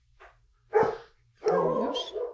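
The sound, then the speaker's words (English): A dog barks a few times: a faint first bark, then a loud sharp bark, and finally a longer, drawn-out string of barks with a slightly whining edge. “Izzy's barking. But yeah, it's still Dog Izzy is barking at something.”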